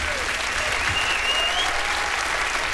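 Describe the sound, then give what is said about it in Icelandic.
Audience applause at a concert, a steady dense wash of clapping held at an even level throughout, with no voices rising above it. “gefa honum gott klapp líka.”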